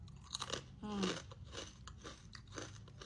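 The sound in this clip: Crunchy chewing of basreng, a fried meatball snack: a few crisp, brittle crunches and bites in quick succession, fairly quiet and close, with soft mouth sounds between them.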